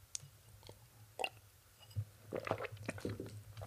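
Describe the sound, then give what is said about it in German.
A person pauses to take a quick drink, producing faint, soft wet clicks and small gulping sounds. The swallows are scattered and quiet, growing slightly busier toward the end. “Ja, nur kurz was trinken.”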